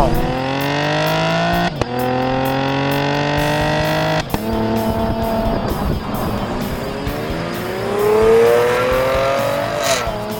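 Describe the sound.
A 2016 Chevrolet Camaro V6 with a standard automatic transmission pulls through its gears, the engine drone climbing steadily, dropping briefly at two upshifts, then swelling again as revs build under load.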